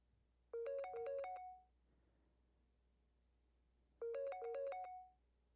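An unanswered phone call rings twice, each ring a short, stepping electronic ringtone melody, separated by a long pause and heard faintly.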